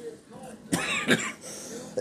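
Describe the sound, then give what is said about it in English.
Two short, harsh coughs from someone with a bad cough, fairly faint, separated by a brief pause over a low background. “Excuse me, as I have this bad cough.”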